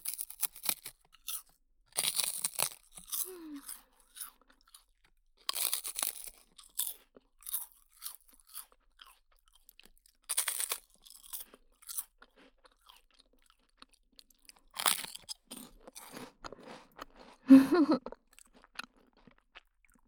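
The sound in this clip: Crunchy milk rice crackers being eaten: many sharp, brittle crunches in irregular bursts of chewing, separated by quiet gaps, loud and close with no talking.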